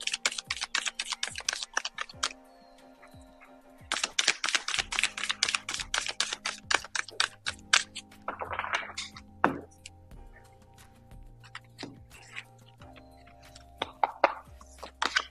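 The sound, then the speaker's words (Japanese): Oracle cards being shuffled and drawn: rapid bursts of crisp papery clicks and snaps, arriving in quick runs with short pauses between them, over a low steady tonal background. “はい、今日のオラクルカードを引いていきましょう。アドバイスは何でしょう。”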